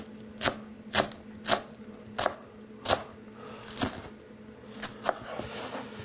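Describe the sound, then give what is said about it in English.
A knife finely chops shallots on a board in a series of crisp, sharp strikes at an uneven, unhurried pace, fairly faint and with no talk. “we're going to chop these up real finely cut”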